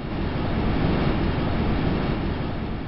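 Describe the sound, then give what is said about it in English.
Wind rushing past the microphones aboard ESA's Huygens probe as it plunges through an orange atmosphere in the outer solar system: a steady, dense, low-heavy roar of rushing noise, constant in loudness throughout, with no separate events or voices. “This incredible sound is a real recording of the wind rushing past microphones on board ESA's Huygens probe, named after its Dutch discoverer.”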